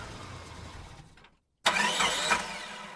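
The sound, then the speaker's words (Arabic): An old-model car parked in front of a building: a low rumble and a brief silence, then the engine bursts to life loudly and runs with a rough, revving roar. “حييت البواب وأدرت محرك السيارة الواقفة أمام البناية.”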